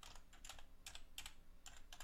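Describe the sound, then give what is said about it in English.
Rapid clicks of keys typed on a computer keyboard come in several short, clustered bursts with brief pauses between them. The sound is moderately loud, crisp, and free of talk. “If I can, if I can type”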